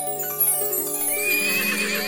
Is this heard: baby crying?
no